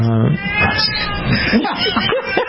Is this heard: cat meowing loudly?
yes